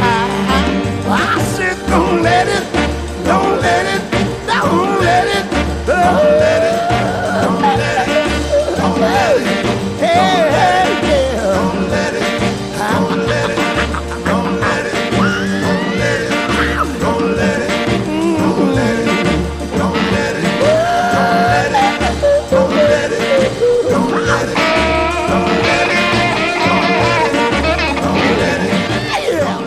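A funk song plays without a break at a steady, full loudness, with a driving groove and dense layered instruments running from start to finish.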